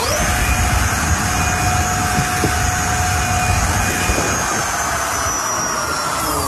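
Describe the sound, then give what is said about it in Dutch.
An electric skinny bike, a thin-tyred fatbike with a throttle, runs at full speed near 120 km/h during a police speed test. It makes a steady, loud rushing roar with a thin high whine that holds unbroken throughout. “De politie was wel benieuwd hoe hard die skinnybike van hem kon en probeerde dat even uit.”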